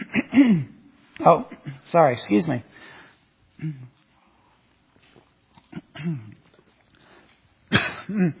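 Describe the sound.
A speaker coughs and clears their throat to dislodge something stuck there, giving a few short, harsh bursts between stretches of talk.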